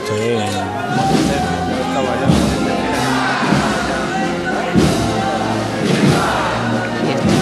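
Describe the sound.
Crowd cheering and calling out during a Holy Week procession in Seville as a statue of the Virgin is lifted, a loud, continuous swell of many voices with louder bursts rising now and then.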